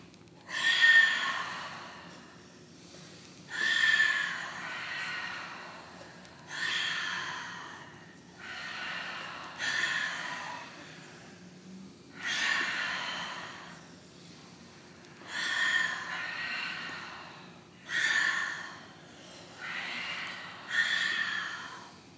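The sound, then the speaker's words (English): Deep breaths for a breathing exercise follow one another in a slow, even rhythm. About eight soft, airy breath sounds are heard, each lasting a couple of seconds and separated by brief pauses. “Inhale. Exhale. Inhale. Exhale. All right, 10 more.”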